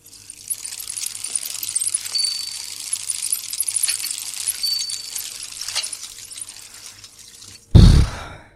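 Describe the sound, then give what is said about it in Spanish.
A small splash as a mobile phone is thrown into the Guadalquivir river on the night of San Juan: one sharp, loud burst near the end, after a long stretch of steady hissing ambient noise. “¡Jodido teléfono! ¡Por tu culpa! ¡Adiós, bonitos mensajes, preciosas fotos! ¡Hasta nunca! El teléfono levantó una salpicadura diminuta y perfecta”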